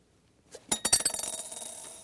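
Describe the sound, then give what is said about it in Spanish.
A coin rests on paper laid over a drinking glass, and the glass is jerked away. Bright metallic clinks ring out in a rapid run, then settle into a fast, fading rattle of coin against glass. “Yo voy a jalar el vaso y se supone que la moneda va a quedarse allí mismo.”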